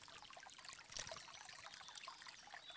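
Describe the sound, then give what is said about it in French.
Water trickles from a stone fountain at a wash house, a faint, steady, delicate splashing that goes on without a break. “Je descends des escaliers en pierre. Je suis émerveillée à chaque fois que je viens dans cet endroit. J'entends l'eau de la fontaine.”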